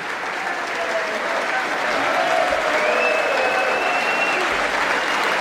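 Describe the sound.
Loud, sustained applause and crowd noise welcome Ukrainian President Volodymyr Zelensky at a joint meeting of Congress in Washington, a dense wash of clapping that stays strong throughout and swells slightly partway through.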